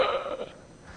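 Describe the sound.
A voice imitates a gasp during a sermon, giving a brief, breathy burst of air that fades quickly into quiet.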